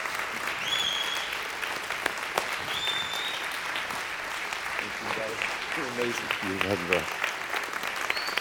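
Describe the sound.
A church audience applauds to welcome a guest speaker: steady, dense clapping runs throughout, with voices calling out over it near the end.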